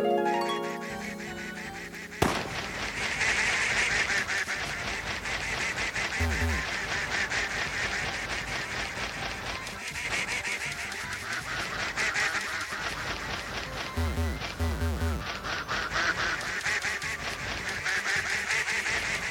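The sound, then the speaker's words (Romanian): Ducks quacking in the video game Catch the duck, where a friendly flock hides one odd bird: dense, continuous quacking that runs unbroken throughout. “Catch the duck. Dacă și la asta mă bătaie, știți, e un grup prietenos de rațe și trebuie să prindem băiatul urât.”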